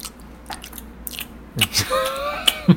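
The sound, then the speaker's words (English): Gum chomped with the mouth open gives a few wet, sloppy smacks and clicks, louder and closer together toward the end. “Yeah, chomping gum. I like to chomp with my mouth open.”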